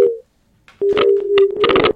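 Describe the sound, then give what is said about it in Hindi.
A telephone busy tone follows a call that has cut off: a brief steady beep, a short silence, then a long sustained low tone overlaid with crackling bursts of line noise. “Phone cut गया है।”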